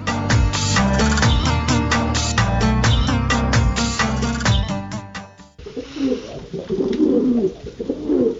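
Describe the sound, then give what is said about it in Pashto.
Baghdadi, Shirazi and other pigeons coo while pecking grain in the late afternoon, giving repeated low throaty coos of varying loudness. “زما بغداده یو شیرازه یو او لټ پټي کوتر په دې ژیړي مازدیګري دانې نوشه جان کوي.”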